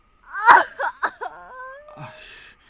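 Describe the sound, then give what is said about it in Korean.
A person cries and whimpers, giving a few shaky, sobbing vocal bursts that end in a drawn-out, wavering whine and a softer breathy sob. “그만 좀 울어요. 진짜 괜찮아질 거예요.”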